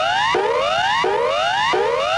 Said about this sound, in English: The standard emergency warning signal has been adopted nationally to precede a warning of an emergency situation such as a fire, flood or earthquake aftershock. The alert sounds like this.